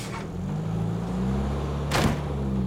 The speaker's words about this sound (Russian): Автобус уезжает.